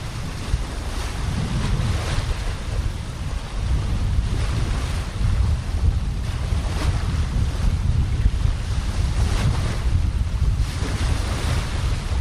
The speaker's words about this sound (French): Puis bien sûr, il y a la mer.